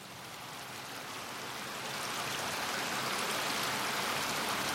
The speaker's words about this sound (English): It's like a river or something or a stream. It's flowing water, but it's not, okay. It's not the ocean.